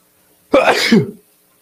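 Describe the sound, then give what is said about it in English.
A single sneeze from a person who had held it back a long time: one sharp, sudden burst that trails into a breathy, hissing release lasting under a second, with nothing else around it. “I had an itch. Fucking dying to sneeze. I was holding that sneeze for almost 10 minutes”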